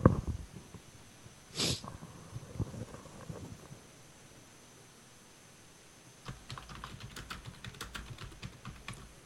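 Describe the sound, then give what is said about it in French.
Typing on a computer keyboard: a rapid run of light, dry clicks fills the second half, after a quieter stretch with a brief breathy swish near the start. “T'es-tu encore là? Je t'entends taper, là”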